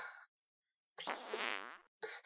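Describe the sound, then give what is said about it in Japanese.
Three bursts of flatulence: a short blast, then a long buzzing, sputtering fart, then a third burst that is cut off at the end, with silence between them. “おならするたびに体がビクビクしてどうです？細かいおならでも匂いは強烈でしょ。”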